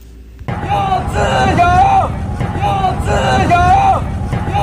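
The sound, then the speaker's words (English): Crowd of protesters chanting in unison at an outdoor rally in Washington Square Park against Uyghur genocide and China's zero-COVID policy; a loud, steady chant of repeated rhythmic phrases rises over constant crowd noise. “This is the sound of protesters chanting in Washington Square Park.”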